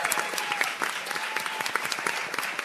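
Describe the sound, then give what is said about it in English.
A live studio audience applauds at a morning roundtable panel at the Linda in downtown Albany. A dense, steady patter of many hands clapping holds a fairly even level throughout, with sharper individual claps popping out now and then. “Give it up, studio audience, to prove that you're actually there.”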